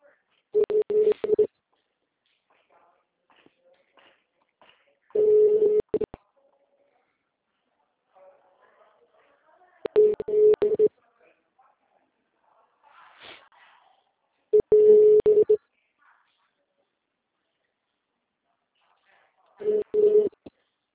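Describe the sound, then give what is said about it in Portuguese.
Telephone ringback tones sound while someone calls the city hall of a client's town: five steady, low-pitched tones about a second long, evenly spaced with long silent gaps. “Tiane, eu não tô na escadora, eu tô tentando ligar lá na prefeitura do meu cliente.”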